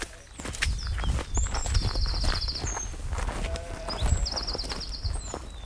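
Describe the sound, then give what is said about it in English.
Footsteps walking through a field of kale, a steady run of crunching, rustling steps throughout, with short high bird trills above them. “I think we should go for a walk through the crops here and see things a little more closely.”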